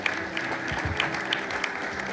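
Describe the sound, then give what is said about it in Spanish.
A church audience applauding, a steady wash of many hands clapping with sharper individual claps standing out, even in loudness through the whole stretch and with no talk. “Y la iglesia aplaudimos, por favor.”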